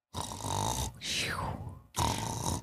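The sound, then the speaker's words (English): A person snoring: a few rough, raspy breaths in quick succession, fairly loud, with no talk in between. “that's me snoring”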